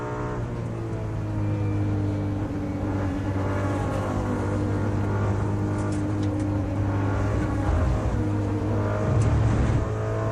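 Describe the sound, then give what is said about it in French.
Race car engines roar on a circuit during a GT3 endurance race, with an Aston Martin among the cars: a loud, continuous drone layered with whining harmonics throughout. “Seul pour le moment, les deux voitures du team Akodis arrivent à suivre et déjà de loin l'Aston Martin.”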